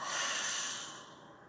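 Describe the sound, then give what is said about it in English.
A long, airy breath during a guided breathing exercise, drawn deep through the nose and let out through the mouth: one steady hiss that gradually fades, with no talking. “Again, inhale through your nose, a nice deep breath in. Open your mouth and let that emotion go.”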